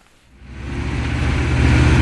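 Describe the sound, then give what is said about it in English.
Engine rumble of a 3-ton, five-metre-long doorless Hummer, built by its driver, climbing mountain roads, a deep low drone that swells steadily louder from near silence and holds strong. “I'm bumping around in a 3-ton doorless Hummer driving through the dramatic mountains around Srebrenica.”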